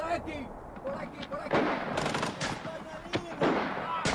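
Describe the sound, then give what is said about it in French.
Machine gun fire in a radio drama battle scene, the fascist side firing on pinned-down attackers: loud irregular bursts of rapid cracking shots repeat several times, with voices mixed in at moments. “Les fachos ont une mitrailleuse. On ne peut pas se lever, on va prendre une balle.”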